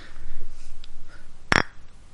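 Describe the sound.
Beer glasses clink together in a toast, a single bright, short ring standing out over low background noise.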